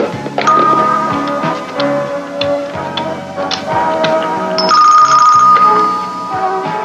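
A telephone rings loudly through an attached ringer device, giving a bright electronic ringtone of repeating high tones that stays loud and steady for about seven seconds with no talking.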